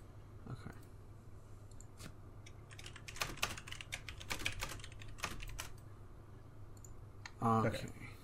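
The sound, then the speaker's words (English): Faint computer clicking and key taps come as a few scattered clicks, then a denser run of rapid keystrokes, tapering off toward the end. “Oh, it's on the tweet. I'll just click it from there.”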